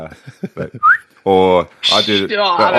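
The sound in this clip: A person whistles as if calling a dog: a short, bright whistle rises sharply in pitch, set among clipped and drawn-out vocal sounds that are loud and close.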